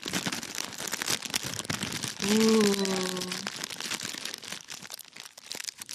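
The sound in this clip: Snack wrappers crinkle and rustle in many crisp crackles while biscuits and a Reese's treat are eaten. A short voiced sound cuts in partway through.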